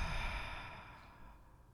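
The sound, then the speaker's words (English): A single slow, breathy exhale, like a soft sigh, during a guided meditation breathing exercise. Airy hiss that starts fairly strong and gradually fades, heard alone without talk. “Inhale through your nose. Exhale through your mouth.”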